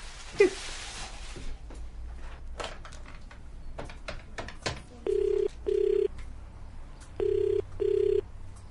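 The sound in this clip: A telephone is dialled, heard as a run of sharp, irregular clicks, then the ringing tone follows in two double pulses, a steady, mid-pitched purr with short gaps and no voices.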